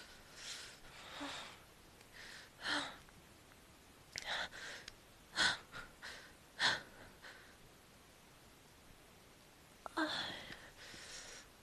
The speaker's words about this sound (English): You kiss my lips and feel me breathe against your mouth.